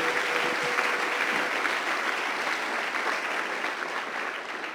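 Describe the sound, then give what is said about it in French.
Church audience applauding, a dense, steady clapping that holds at an even loudness from start to finish with no pauses. “J'aimerais qu'on l'acclame très fort avant de terminer.”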